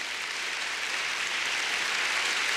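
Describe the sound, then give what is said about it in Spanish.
Applause from an audience at a religious gathering, a dense, steady crackle that fills the whole stretch without a break. “Denle un aplauso al Rey bendito.”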